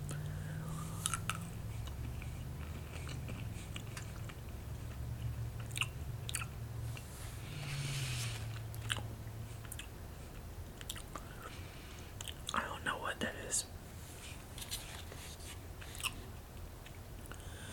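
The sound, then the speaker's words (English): Soft chewing of black licorice, quiet and wet, with a few sharper biting crunches scattered through a long stretch of slow, steady mastication. “I'll still eat it and swallow it and everything, but I do not enjoy black licorice at all.”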